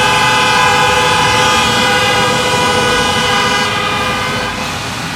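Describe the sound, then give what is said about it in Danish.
Horns honking outside near police officers, sounding as a loud, sustained multi-tone blare. The horns hold steady for about five seconds and ease off slightly near the end, with no voices. “så bliver der dyttet herude.”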